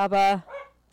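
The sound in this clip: A small dog at home barks in a short, loud burst of a yelp beside a brief spoken remark, reacting to activity in the hallway.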